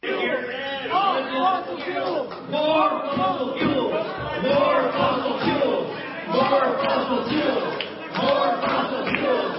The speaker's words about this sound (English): So this is the audience chanting as they get up there.